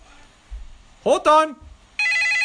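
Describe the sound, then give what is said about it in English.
A telephone bell rings in one loud, sustained metallic trill. It starts right after a short burst of excited voices. “Oh, that's the phone!”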